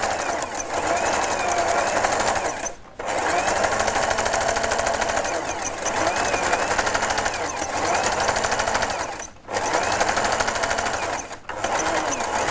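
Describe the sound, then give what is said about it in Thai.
A sewing machine stitches fabric in long, rapid, buzzing runs of the needle, loud and even, broken by three brief stops. “เวลาเราเย็บนะคะเราก็ต้องช่วยกันประคองผ้า”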